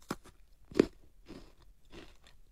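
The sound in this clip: Crisp crunching bites and chewing of a pink food, a few sharp crunches with the loudest near the middle, followed by softer chewing crackles, with no talking.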